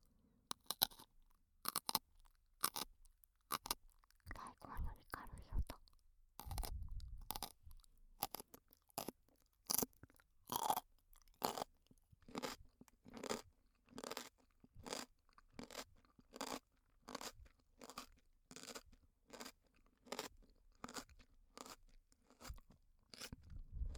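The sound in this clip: Loud, crisp crunching and chewing of raw vegetable pieces, with many sharp bites and crunches repeating in a fairly steady rhythm, heard alone without talk.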